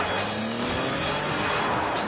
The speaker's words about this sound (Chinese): 这个时候，绿色的跑车在窄窄的马路上像箭一样行驶，吉普车在后边紧追不放。